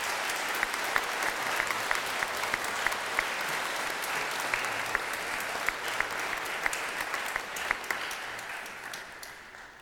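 An audience in a church service applauds its graduates. Continuous, even clapping from many hands carries on at a fairly strong level, then tapers off at the very end.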